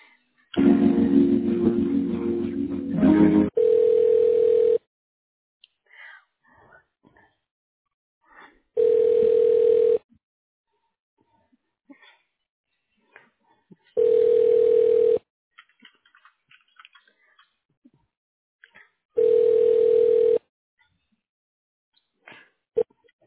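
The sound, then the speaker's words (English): Telephone ringback tones play while a call is transferred to a radiology director's voicemail line. Noisy line sound comes first, then four steady mid-pitched rings of about a second each, evenly spaced several seconds apart, with faint clicks between. “Okay, I'm going to transfer you back there. If she doesn't answer, just leave a voicemail”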